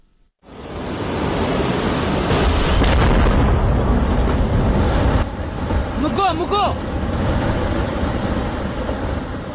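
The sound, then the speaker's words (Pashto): A gunpowder blast in a machine-worked semi-precious stone mine in Nuristan: after a brief quiet moment a loud, roaring rumble erupts and sustains for many seconds, with voices briefly heard over it. “نورستان کې د نیمه قیمتي ډبرو په یو کان کې چې په ماشین سورای شوی د باروتو چاودلو غږ و، دا غږ د افغانستان په ختیځ کې د قیمتي او نیمه قیمتي ډبرو یو سوداګر ازادي راډیو ته رالېږلی دی.”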